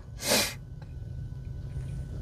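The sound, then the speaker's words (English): A single loud sniff in a parked car: a short, breathy, noisy rush near the start that quickly stops, then a steady low hum with no voices. “But I had a sniff. Don't do that. It was so loud.”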